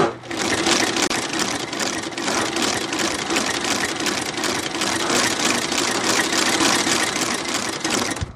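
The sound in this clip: A shoe repair sewing machine's motor runs steadily, a continuous whirring drone with a fine rapid texture. The loudness stays even for about eight seconds. No one speaks.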